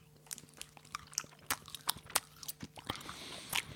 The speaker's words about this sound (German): Ich beiß jetzt rein.